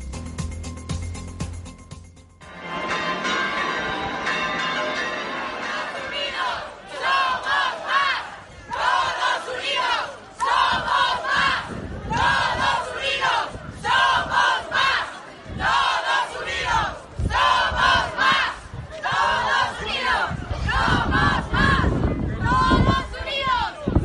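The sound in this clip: Loud, rhythmic chanting from a crowd of more than 2,500 protesters gathered in the Plaza de España of Brea de Aragón and marching through the streets, with many repeated shouted bursts forming a steady cadence.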